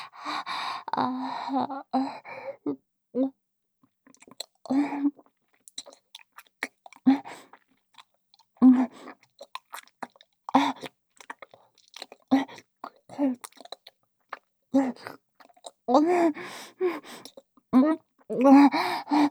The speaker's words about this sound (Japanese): 旦那様の出来たて天かす、しっかりと味わわせていただきますね。